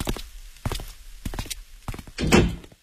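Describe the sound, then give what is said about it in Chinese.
A door being shut inside a home: a few soft knocks and thuds lead up to a louder, heavier thunk near the end, followed by quiet. “马建行关上了门，坐回到沙发上”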